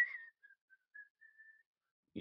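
A person whistles a tune alone, a short run of several clear, high notes followed by a longer held note, then a brief soft low noise at the end.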